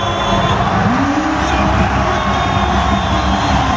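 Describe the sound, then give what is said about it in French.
Arena crowd giving Victor Wembanyama a rockstar welcome as he enters the court in Orléans for a French national basketball team game: a continuous, loud wash of cheering and shouting that stays even throughout. “Pour son entrée sur le parquet d'Orléans, Wemby a eu le droit à un accueil de rockstar.”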